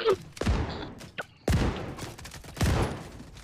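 Pistol gunfire in a video game: a few sharp, heavy shots with booming low tails, spaced roughly a second apart over a steady background din.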